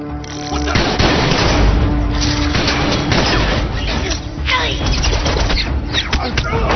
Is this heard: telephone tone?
no